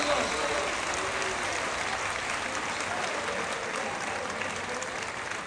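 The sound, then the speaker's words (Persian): People clapping their hands: dense, continuous applause from many hands, a fairly faint, even rattle that holds steady for the whole stretch without pauses. “بزن دست، بزن دست، بزن”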